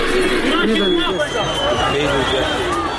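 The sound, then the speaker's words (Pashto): Crowd chatter in a busy city market: many overlapping voices talking at once, a dense, steady babble that stays loud throughout with no single speaker dominating. “خو په ښار او مارکیټونو کې د خلکو ګڼه ګوڼه تر دې څو چنده زیاته ده.”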